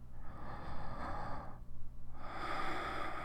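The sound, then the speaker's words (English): Deep, airy breaths from someone being coaxed to breathe slowly. Two long breaths are separated by a brief pause, each a soft, breathy rush with no speech. “Come on. One big deep breath. Please. Come on. One deep breath. I promise it'll help.”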